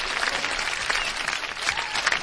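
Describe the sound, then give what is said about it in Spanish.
Audience applause for workers of a local food market: a dense, steady patter of many hands clapping at an even loudness from start to finish, with no single voice standing out. “¡Un aplauso para todos los del mercado de abastos!”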